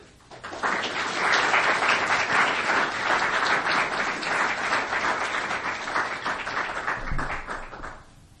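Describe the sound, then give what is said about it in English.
Audience applause welcomes the evening's speakers at a Commonwealth Club program. Dense, loud clapping swells in quickly, holds steady for about seven seconds, then tapers off near the end. “Would you please join me in welcoming tonight's speakers?”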